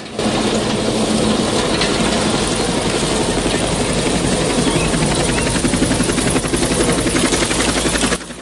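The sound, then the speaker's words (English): A helicopter hovers over a tree canopy and comes in to land at a camp. Its rotor and engine make a loud, steady, unbroken roar that lasts almost the whole time and cuts off sharply near the end. “Tay points as the chopper hoves over the tree canopy and comes into land in the camp.”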